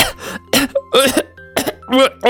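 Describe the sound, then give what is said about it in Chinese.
Coughing of a children's cartoon character with a fish bone stuck in the throat: a rapid series of strained, voiced coughs and throat-clearing hacks in short bursts. “他现在难受的直咳，鱼刺还卡在喉咙里呢，咳了半天也不管用。”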